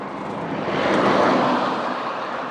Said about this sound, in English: It's commuter time on this little back road, which you hardly got a vehicle on before, but now, because the main routes are so busy at the commuter times,